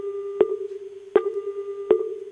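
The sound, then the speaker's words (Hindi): A telephone call signal on a poor connection: a steady low tone running throughout, broken by three sharp clicks at even intervals. “तो इन वास्ते देखो doctor साहब एक phone आयो।”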